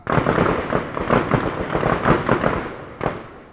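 Gunfire echoes from a nearby gun range in a dense, continuous volley of sharp cracks. The shots overlap into a rolling clatter, and one more distinct shot rings out near the end.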